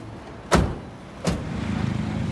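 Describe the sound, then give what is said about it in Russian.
Car doors shut as people get into a car: two dull thuds about a second apart, followed by a steady low hum. “Садятся в машину.”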